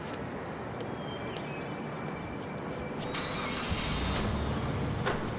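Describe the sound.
A car's engine starting and the vehicle pulling away, with a steady low rumble under faint noise that swells louder partway through and stays strong to the end.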